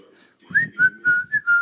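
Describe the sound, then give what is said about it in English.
A person whistles a song that has been stuck in their head, giving five clear sustained notes of a tune in a fairly high, steady pitch. “now that this song is around, it's been in my head, I keep randomly whistling it, and I don't even know why.”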